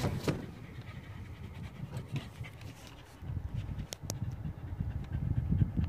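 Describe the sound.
Dogs pant quietly: fast, breathy, rhythmic puffs over a low, soft rumble. They continue throughout and grow a little louder and denser toward the end.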